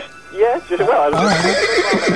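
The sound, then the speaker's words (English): A horse whinnies in one long, wavering call of about two seconds. The tremulous pitch shifts up and down, and the loudness stays fairly steady throughout. “Can I have a word with the horse? Mystic horse? You want to have a conversation?”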